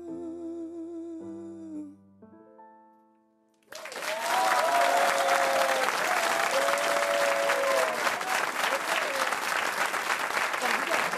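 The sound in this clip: Audience applause for a singer after a live song: a fading musical note gives way to a sudden swell of dense clapping that stays loud and sustained for the remaining seven seconds.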